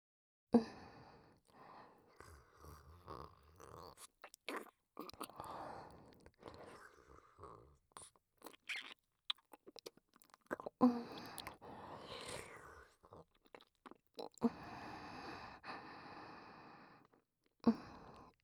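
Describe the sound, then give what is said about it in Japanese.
Food being chewed and swallowed in the mouth, heard as soft, close, wet clicks and smacks spread over many seconds, with quiet breaths and faint whispering between them. “それじゃあ、すべて飲み込むから、しっかり聞いていてね。”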